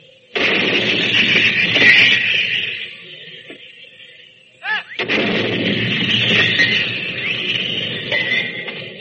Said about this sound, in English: Now here's the sound of a 75-millimeter field gun fired by a British gun crew in the First Battle of France.